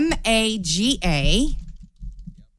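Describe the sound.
Typing on a computer keyboard: a stretch of voice at the start gives way to a few quick, light key clicks.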